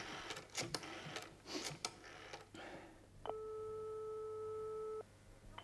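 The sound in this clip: A telephone dialling tone, a steady electronic hum held unbroken for nearly two seconds. It follows several sharp clicks and knocks and then cuts off abruptly.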